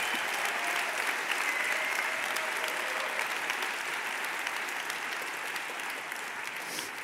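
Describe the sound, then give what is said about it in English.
An audience applauds award winners at a food awards ceremony, a dense and steady patter of many clapping hands that holds for several seconds and eases slightly toward the end. “Let's give a round of applause to all the winners again.”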